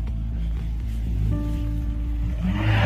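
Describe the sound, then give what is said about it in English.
Engine of an unmarked Dodge Charger, a steady low droning hum with a faint tonal whine, growing slightly louder toward the end. “And that looks like the same unmarked Dodge Charger from the last video.”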